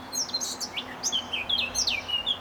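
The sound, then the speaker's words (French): A bird chirps in many short, high, quick notes in irregular bursts over a faint low hum. “Voilà, si c'était pas clair, l'oiseau te l'a expliqué.”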